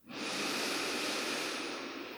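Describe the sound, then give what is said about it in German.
A single long, deep breath, soft and airy like a hiss, during a guided breathing exercise with the hands on the chest; it swells quickly and holds steady before easing off, faint and alone. “tief ein und aus. Atme noch zwei, dreimal so ganz bewusst hier gegen deine Handflächen.”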